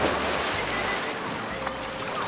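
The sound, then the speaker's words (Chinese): Crowded indoor swimming pool ambience: a loud, continuous, broad wash of splashing water, steady throughout with no distinct voices. “妈妈，今天游泳馆的人真多呀。”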